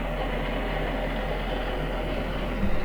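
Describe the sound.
A train in a video game rumbles with a steady, loud, continuous low clatter that does not change, with a brief bump near the end and no talk.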